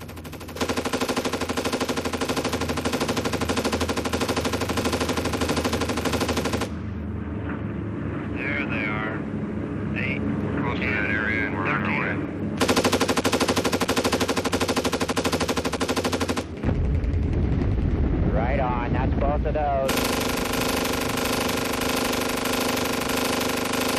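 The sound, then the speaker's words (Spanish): Gatling rotary cannon on a Vietnam War gunship firing at a very high rate, three long, continuous roaring bursts separated by quieter stretches of lower rumble. “Gatling con cañón rotativo, un arma devastadora, con una velocidad de disparo muy elevada. Puff describe un ancho arco de círculo alrededor de su objetivo, que será literalmente despedazado.”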